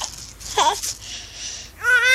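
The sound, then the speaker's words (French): An infant girl babbles in short, wavering vocal bursts, then breaks into a rising, high-pitched crying wail at the end, with no adult talk. “Maintenant, elle pleure. Ah non, ça c'est pas possible, ça va pas se mettre à pleurer.”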